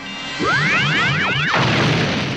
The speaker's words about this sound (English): The disintegration chamber explodes.